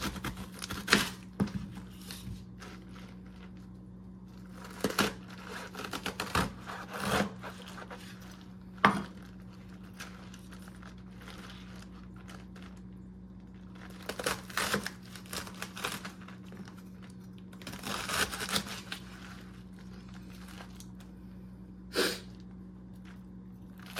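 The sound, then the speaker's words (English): A knife cuts up napa cabbage in a kitchen, making crisp, irregular clicks and crunches in several scattered bursts. The cutting is fairly faint over a steady low hum, and nobody speaks. “I'm going to start cutting up the napa cabbage at this point, and it sounds really good, so I'm going to stop talking for a sec.”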